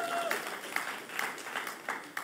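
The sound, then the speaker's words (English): An audience claps at a religious talk, producing a fairly faint, steady patter of applause with a few sharper individual claps standing out over the full length. “Yeah, we can clap for that.”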